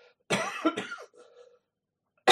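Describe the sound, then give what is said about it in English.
Coughing in a small church with dry air: a loud burst of two harsh coughs, then a softer raspy trail, then another sharp cough starting at the very end. “I don't think I have coronavirus, even though I coughed.”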